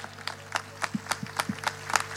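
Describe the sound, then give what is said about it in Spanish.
Sparse applause from a small audience answering a call for solidarity during an emergency. The claps are fairly faint and land in a loose, steady rhythm over a low electrical hum. “vamos a dar un ánimo con un aplauso porque estamos dispuestos a ayudar.”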